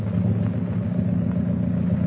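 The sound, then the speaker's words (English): A running motor gives off a steady, low engine rumble that holds even throughout, with no voices over it. “See what's up ahead? Yeah, it's the motor.”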